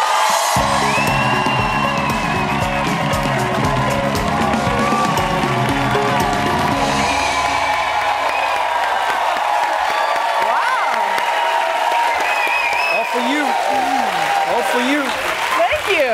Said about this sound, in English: Welcome to the show. Standing ovation. You have an amazing audience.